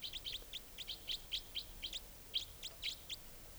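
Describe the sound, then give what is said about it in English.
A wild bird gives a rapid series of high, thin chirps, calling close to caged birds. The many short notes come in a quick, fairly even rhythm over a faint background hiss. “The wild bird is the less forceful of the calls, and I'm trying to point at the wild bird, and she's down almost on top of the cages now.”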